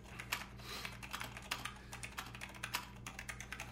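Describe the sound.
Someone types a statement on a computer keyboard during a police interrogation. The keystrokes come faint and quick in an uneven stream over a low steady hum, with no talk.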